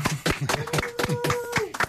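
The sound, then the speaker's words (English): A small round of applause in a radio studio, with a few people clapping in a quick, steady rhythm, fairly faint and sparse rather than a full crowd. “I think we need a round of applause.”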